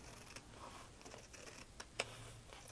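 Scissors cut something out of paper, a few faint, crisp snips and clicks standing out from a quiet background, the sharpest near the end.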